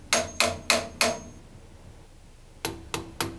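Sharp knocks on metal pipes in a ship's storeroom: four evenly spaced, ringing raps, a short pause, then three more. Each gives a bright metallic clang that dies away quickly.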